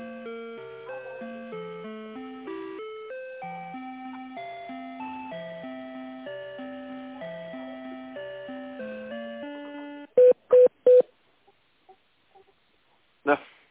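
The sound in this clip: A telephone call is transferred, with soft melodic hold music playing for most of the time. Three short, loud electronic tones then follow in quick succession, then faint blips and one final brief burst.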